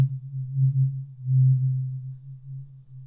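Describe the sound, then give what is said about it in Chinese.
A tuning fork gives a sustained pure low tone that holds one pitch throughout, with its loudness gently swelling and ebbing, heard alone. “接下来听完音叉，我们再来听一下”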